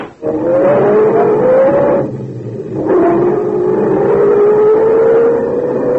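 A sedan engine pulls away, its note climbing steadily, breaking off briefly, then rising again into a second long, loud pull with no voices over it.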